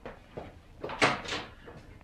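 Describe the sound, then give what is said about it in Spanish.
A door slammed shut: softer shuffling and two noisy swells build through the middle, then a sudden sharp, loud bang cuts in at the very end. “Y papá cortó la discusión con un portazo.”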